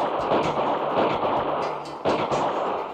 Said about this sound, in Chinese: 严京生见状拔枪射击